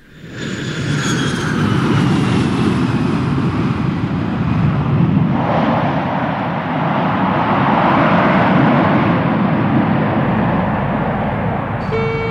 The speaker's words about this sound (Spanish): Señores pasajeros, el vuelo 1979 ha arribado a destino. Por favor, permanezcan en sus lugares hasta tanto el avión se haya detenido completamente.